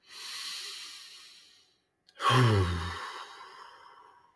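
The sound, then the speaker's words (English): Deep breathing during a guided breathing exercise: one long, airy inhale, a short silent pause, then a heavier sighing exhale with a voiced edge that fades out slowly. “So let's just take a couple breaths with me.”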